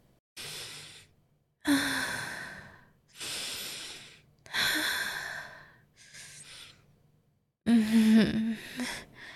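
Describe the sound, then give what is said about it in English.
A man breathes loudly and deeply. Several long, drawn-out breaths are separated by short pauses, with a breathy, sighing quality. “Can you breathe louder like this?”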